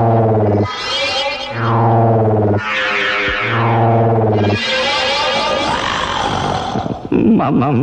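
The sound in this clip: A voice imitates a tiger's roar with a heavy effects and echo treatment: a few long, deep, growling roars in a row, loud and harmonic, ending in a brief rougher snarl.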